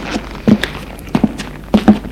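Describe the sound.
Footsteps of a woman going upstairs: loud, heavy treads land in a steady rhythm of paired steps, each pair a quick double thud with short gaps between.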